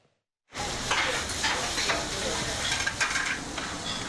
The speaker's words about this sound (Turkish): Tavada pişiyor, bir dakika içinde servise hazır hale geliyor.